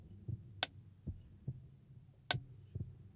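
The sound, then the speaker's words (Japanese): A faint heartbeat gives a few low, muffled thumps at roughly regular intervals over a few seconds. Two brief, sharp clicks stand out among the beats, and no voices are heard. “心臓の鼓動が規則正しく聞こえる。”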